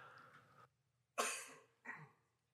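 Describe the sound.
A person coughs from a tickle in the throat, two coughs in a row. The first is sharp and louder, the second shorter, both quiet overall.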